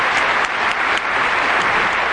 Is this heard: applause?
yes